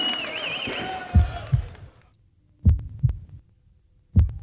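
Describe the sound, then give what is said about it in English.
Heartbeat heard as low, soft double thumps in a slow, even lub-dub rhythm, about three beats in all, following a fading wavering tone at the start. “The rhythm of your heartbeat.”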